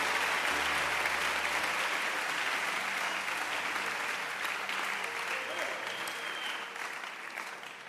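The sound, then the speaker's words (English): A church audience claps during a sermon, the steady applause running over low sustained instrumental tones and slowly fading toward the end. “I like your hand clap. It shows you understand the message.”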